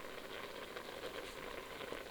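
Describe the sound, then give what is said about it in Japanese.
Tiger beans simmer in a pot for a mixed bean stew made as a ritual offering, giving a faint, steady bubbling with a soft crackle that runs without pause and without talk. “まず1つは豆ラタシケプ、豆を使った混ぜ煮料理ですね。ラジオの中ではトラ豆というふうに紹介しておりますが、ちょうど煮てるところです。”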